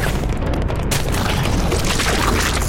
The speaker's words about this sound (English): fire that popping pot at the ground near this big machine as soon as we pass by it.